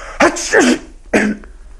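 The caliph sneezes in an Arabic historical drama about Imam Malik: a voiced, pitched burst with a gliding tone, followed after a brief gap by a shorter second burst, heard alone without talk.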